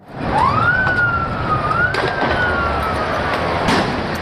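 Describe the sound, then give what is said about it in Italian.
A police siren wails during a night street riot in Buenos Aires, its loud tone sweeping upward and then wavering over a steady, noisy background. “Questi alcuni suoni della notte dalla capitale argentina, finita con pallottole di gomma, lacrimogeni e cariche degli agenti antisommossa”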